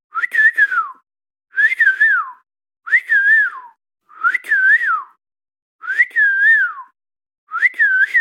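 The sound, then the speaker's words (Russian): A person whistles an imitation of a golden oriole's song in six short, fluting, warbled phrases with pauses between them. The whistling is clear and fairly loud, with no other sound. “Я так немножко умею свистеть, и Иволга, мне кажется, это просто единственная птица, которой я умею подражать.”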